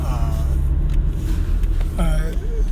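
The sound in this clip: Steady low engine and road rumble from a car being driven, running beneath a man talking.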